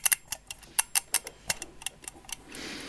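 A clock ticks right after being set, sounding as many sharp, dry clicks at an uneven, quick pace. The clicks stand alone with no talk, and a soft rushing noise rises near the end.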